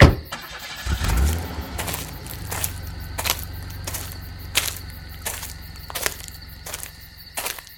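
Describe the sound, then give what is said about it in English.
A car engine starts with a low thump and then idles as a steady low hum, with sharp intermittent clicks on top. “Keep the motor running.”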